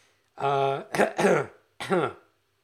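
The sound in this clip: Coughing and throat clearing after something went down the wrong pipe: a few harsh, throaty voiced bursts with short gaps, loud and alone, the last one separated by a brief pause.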